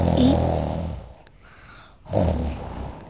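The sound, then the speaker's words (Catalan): Two snores from a wolf sound effect in a fairy tale: each a long, rough, growly rasp that fades out, separated by a short near-silent gap. “El llop va seguir roncant”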